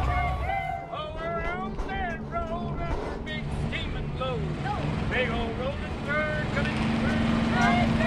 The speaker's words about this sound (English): Now the RV cruises past a brilliant vista of the Rockies, stirring up dust in its wake.